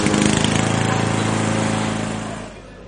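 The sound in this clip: A lawn mower running: a steady, buzzing engine drone that holds even, then fades toward the end.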